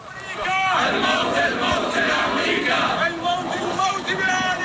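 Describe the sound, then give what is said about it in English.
A crowd chants at a funeral in Baghdad for fighters killed in strikes, many voices shouting slogans together in a loud, rhythmic, continuous chant. “So that was in Baghdad, and the chants are death to Saudi rulers and death to America.”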